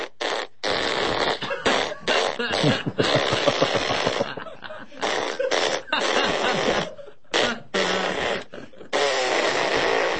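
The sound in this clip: Flatulence noises play the closing part of the national anthem after a chili cheeseburger meal. Many loud, raspy blasts of varying length follow one another, broken by short silent gaps.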